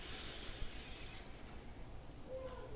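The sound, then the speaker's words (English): A deep inhalation during a guided breathing and relaxation exercise: a soft, steady, airy hiss that carries through the whole moment without a break. “As we have done that, we once again go back to our comfortable posture and we take a deep breath in”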